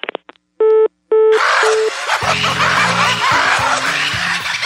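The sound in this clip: Telephone dialing tones, then three evenly spaced tone bursts of a busy signal on a repeat call, soon buried under a loud, dense wash of noise with low droning tones.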